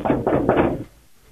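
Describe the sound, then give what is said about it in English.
Someone knocks on a closed bathroom door, giving three quick, dull, fairly loud knocks in a row before it goes quiet. “Sir, don't stop knocking, please.”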